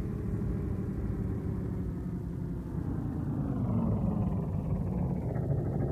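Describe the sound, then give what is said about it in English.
A military vehicle's engine arriving, a steady low rumbling drone that grows slightly louder while its tone slides downward partway through. “Just as I feared. A military vehicle. And a very business-like-looking captain sitting beside the driver.”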